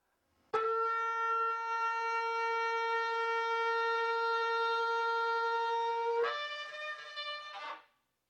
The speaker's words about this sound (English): Finally, the tekiah gedola is the one blast that increases in loudness as it blasts.